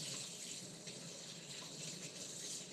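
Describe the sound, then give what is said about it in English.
Tap water runs in a steady, unbroken rush as a cutting board used for cutting kabocha squash is rinsed. No one speaks. “Gotta rinse the cutting board.”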